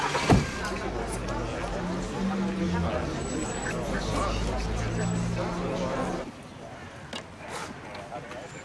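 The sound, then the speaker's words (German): Car driving slowly, its engine giving a steady low rumble under people talking; the hum stops after about six seconds, leaving quieter background noise. “Wir fahren ganz langsam, ja? Schnall dich an!”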